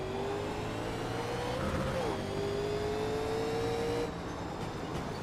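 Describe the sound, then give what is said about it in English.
Race cars accelerate at a green-flag start, a loud, steady engine roar with a sustained tone that drops sharply just after two seconds and then holds until the roar thins near the end. “Green flag, we're racing.”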